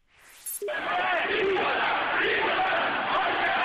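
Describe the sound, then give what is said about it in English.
Protesters in Tehran, Iran, shout and chant together in a massive, sustained roar. It starts abruptly after a brief quieter moment and stays loud and dense throughout. “That's the sound of massive protests in Tehran, the capital of Iran.”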